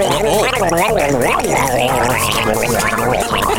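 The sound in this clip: A voice imitates gargling-like scat singing, producing a loud, unbroken, bubbling vocal warble whose pitch swoops up and down throughout.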